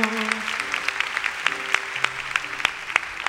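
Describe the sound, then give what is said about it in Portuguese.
A Mass audience applauds the Holy Gospel, loud continuous clapping with sharper individual claps standing out, while sustained musical notes hold underneath. “Aplauda forte. Aplaudamos o Santo Evangelho.”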